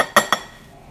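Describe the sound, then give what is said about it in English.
Two quick, bright clinks of a spoon against a bowl as lime juice is stirred into sour cream, followed by near silence. “And I just stir it together.”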